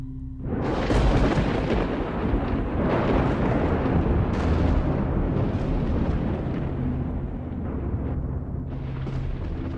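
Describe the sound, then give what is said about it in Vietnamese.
Thunder rumbling across the sky: a loud, continuous rolling roar that swells in shortly after the start and holds heavy and steady to the end, with no voices. “từ trên tầng không tiếng sấm vang trời”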